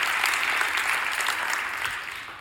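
A church audience applauds with dense, steady clapping on its own, fading slightly toward the end.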